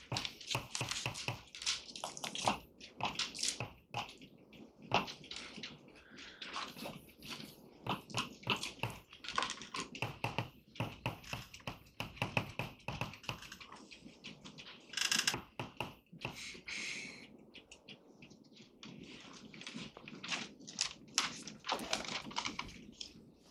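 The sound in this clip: Writing out a definition by hand: many irregular scratches and quick taps in uneven bursts with short pauses between, faint and unaccompanied by speech.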